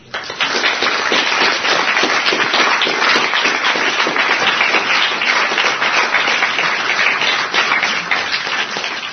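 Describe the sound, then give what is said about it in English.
Dense, steady audience applause, loud and continuous for the full length, with no voices rising above the clapping. “We are very happy to give a loud round of applause to both these listeners.”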